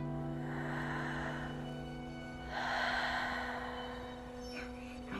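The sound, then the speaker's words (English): A voice imitates slow breathing in a bedtime story: two long, airy breaths, the second one louder, over a steady low hum. “every night they would see how slow they could breathe. See who could be slower.”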